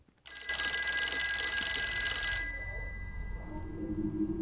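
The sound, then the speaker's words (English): A telephone rings with one continuous, bright, high bell ring lasting about two seconds, then stops and leaves a low, quiet background. “She moves over to the phone and picks up the receiver.”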